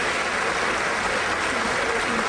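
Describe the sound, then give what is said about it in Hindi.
Applause following a sung performance, a dense hiss-like patter of many clapping hands, loud and unbroken across the whole stretch. “क्या बात है, बहुत बहुत बहुत ही सुंदर गाना गाए और तालियां तो बनती हैं, ढेर सारी”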